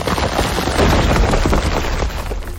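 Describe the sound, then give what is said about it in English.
The Boulder Bash attack from a monster-battle video game gives a loud, dense crashing burst: rapid rumbling, crackling impacts fused into one rough barrage that runs the whole length. “Foe Resgard used Boulder Bash.”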